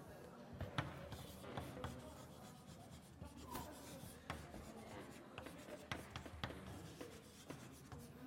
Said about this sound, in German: Ich schreibe nur noch mal die Überschrift vom nächsten Abschnitt hin.